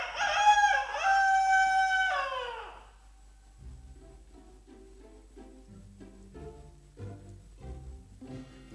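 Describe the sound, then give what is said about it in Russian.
A rooster crows once, a long loud call with a wavering, strained pitch lasting almost three seconds. Quieter low, rhythmic sounds follow after it. “Окошком снова прокричал петух”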